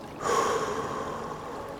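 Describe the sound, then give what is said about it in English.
Breathwork practice with a double inhale through the nose and a single exhale through the mouth. One audible, airy breath begins sharply and then holds steady and soft, with no talk over it. “take a nice inhale through the nose twice and then an exhale out through the mouth”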